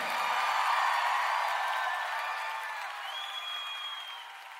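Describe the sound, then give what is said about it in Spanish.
A church audience applauding during worship, a smooth wash of clapping that holds steady, then gradually softens toward the end. “Aplauda a su Señor.”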